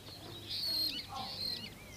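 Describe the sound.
Starlings chirp in a blossoming white garden, giving a few high, whistling, sliding twitters. The calls are faint, with a soft background hiss and no talk.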